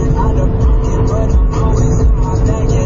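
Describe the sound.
Car road noise while driving at night on Interstate 81 through Pennsylvania: a loud, steady, low engine and tire rumble runs throughout, with a voice talking over it.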